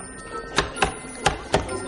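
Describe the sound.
Students cut small dark seeds with knives in a potions class, and the blades slip. Four sharp, distinct taps sound in quick succession against a hard surface.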